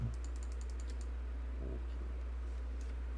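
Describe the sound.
Typing on a computer keyboard: a quick run of light clicks, then a few sparse taps, all quiet over a steady low hum.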